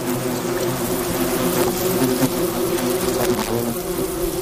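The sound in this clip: Worker wasps buzz at their nest, a dense, steady drone of many overlapping wings that stays loud and unbroken throughout.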